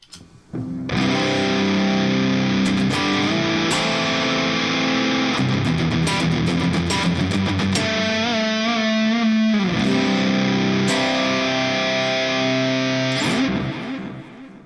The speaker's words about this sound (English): the Big Muff Pi op amp engaged into a 412 greenback with 6L6s sounds like this.